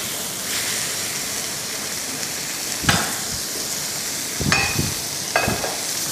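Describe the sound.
Seared Rostbraten sizzles as it goes into the sauce in a pan, a steady, faint frying hiss broken by three louder spitting bursts.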